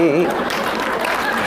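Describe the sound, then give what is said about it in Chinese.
Audience applause at a live comic stage performance: a brief voice at the start, then a short burst of dense, steady clapping. “哎，行，您各位还鼓掌呢”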